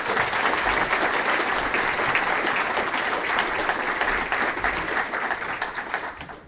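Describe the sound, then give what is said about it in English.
Audience applause welcomes a speaker, with steady, dense clapping that stays loud for several seconds and then tapers off at the end. “So please give Ian Hutchinson a warm round of welcome.”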